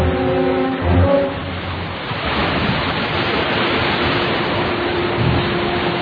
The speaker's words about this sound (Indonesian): kami langsung heboh dan berlari mencari asal suara itu. Tak lama, kami sudah asyik bermain di air curug.